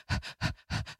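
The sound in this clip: A human voice imitates a dog panting hard while whelping in her box: three rapid breathy pants, each a quick in-out pair, raspy and rhythmic.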